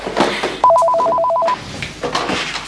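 A telephone rings in one short burst of rapid two-pitch warbling that lasts under a second. It stands out clearly over a noisy, rustling background that continues before and after it.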